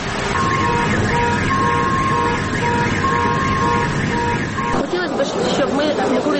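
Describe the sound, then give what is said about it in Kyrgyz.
An air raid siren sounds over Kyiv in the morning, a loud, steady, wavering wail that holds throughout and shifts texture near the end, with a murmur of voices beneath it. “Таңерте баш кала Киевти жана Киев облусунда абадан сирена жаңырып жардыруулардын үнү угула баштаганда эле”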